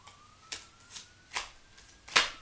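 Tarot cards being shuffled during a reading: several short, crisp riffling bursts at a steady pace, the last loudest, over a faint steady tone.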